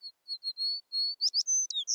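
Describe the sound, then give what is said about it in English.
American tree sparrow calling: a series of thin, high whistled notes, then quicker, more warbled chirps in the second half, clear and alone. “Though American tree sparrows are common in North America, their populations have steeply declined since the 1970s.”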